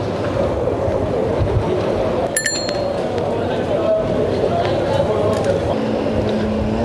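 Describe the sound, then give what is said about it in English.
Wind and air rushing past while cycling through the Faubourg Saint-Denis area of Paris in the evening, a steady loud low rumble with light rattling clinks and one brief sharp metallic ring partway through. “I don't know if this is too noisy or not because of the wind or the air, you know, as I cycle”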